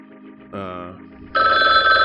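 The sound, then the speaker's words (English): A telephone ring starts partway through and sounds as a loud, steady electronic trill to the end, after a brief quieter sound at the start. “Oh, that's the phone. Hold on. I got to get the phone.”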